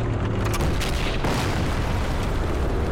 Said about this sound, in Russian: Танк стреляет. Поднявшийся на бруствере разрыв отбрасывает красноармейца в окоп.